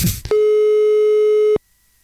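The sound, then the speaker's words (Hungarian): A telephone ring tone sounds while a radio listener is being called: one long, steady electronic tone follows a brief moment of talk, then cuts off into silence. “Na, hívjuk még a naphallgatóját. Hát, amíg ő is megint felveszi.”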